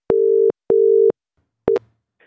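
Ringing tone of an outgoing telephone call: two steady, loud, low beeps of equal length separated by a short gap, then a third beep cut off abruptly, with no talk.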